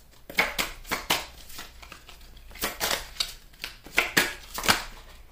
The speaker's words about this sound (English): Now, I'm going to put these back in the deck.